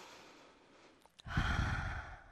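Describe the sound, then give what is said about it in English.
A person takes a deep breath in during a guided smiling exercise. A couple of faint clicks come first, then a loud, airy inhale that lasts about a second before fading. “So the first one, all right, so just kind of take a deep breath in”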